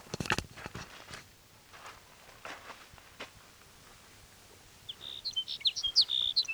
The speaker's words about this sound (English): There's sage sparrow number one.